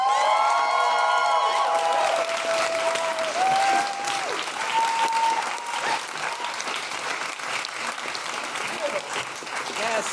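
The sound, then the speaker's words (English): Audience applause and cheering as a comedian is welcomed to the stage at a Fringe comedy show: loud, dense clapping with whoops near the start, continuing steadily and easing slightly toward the end. “Please put your hands together, stamp your feet, and make general woohooing noises for the wonderful Desiree Burch.”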